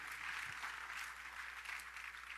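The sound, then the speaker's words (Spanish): Congregation applauding for the Lord in a church service, an even, unbroken wash of clapping that stays quiet and constant throughout. “Y vamos a dar un aplauso al Señor porque esta es nuestro galardón.”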